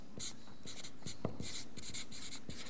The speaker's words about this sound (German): Also ich schreibe jetzt mal dieses ähnliche Formulierung, ja, am Anfang.